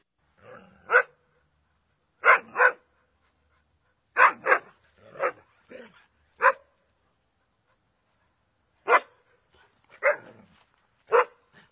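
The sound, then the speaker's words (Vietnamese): A black dog barks loudly in scattered bursts of one or two sharp barks separated by short silences, with many barks over the stretch. “có một con chó mực nằm giữa gốc ổi, thấy chú Tàu với Trần Mừng đi tới thì chạy ra sủa vang tai.”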